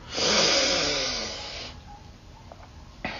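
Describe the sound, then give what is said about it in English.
One long, deep breath taken at the start of a tarot reading circle: a loud, airy rush of air swells quickly and then fades gradually over about a second and a half. Near-quiet follows, with a faint small click at the end. “I always like to start with a deep breath to thank the cards for their wisdom. So I'm going to do that now.”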